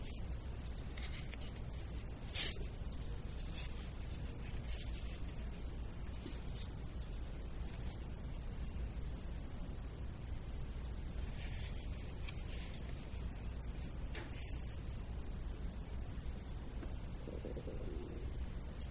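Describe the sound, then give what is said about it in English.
Fingers peel eggs with a faint, continuous crackling and rubbing of shell, broken by a few sharper clicks. No voices are heard. “Fingers peeling eggs.”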